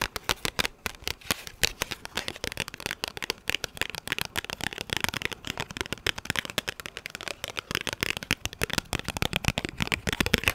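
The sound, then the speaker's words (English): Fingertips tapping on Pokemon trading cards make many rapid, crisp clicks in a dense, continuous patter that stays fairly even in loudness throughout, with no talking. “I'm not sure if these are gonna sound different, but do you prefer Pokemon card tapping?”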